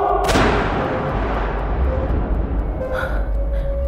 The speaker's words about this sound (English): It was me. I shot him.